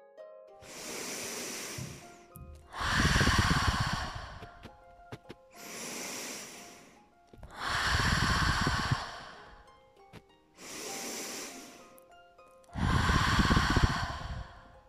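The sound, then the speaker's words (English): Three slow, deep breaths, each a softer hissing inhale through the nose followed by a louder, longer whooshing exhale through the mouth, with brief quiet gaps and no talking. “take 3 nice deep breaths, inhaling through your nose and exhaling through your mouth.”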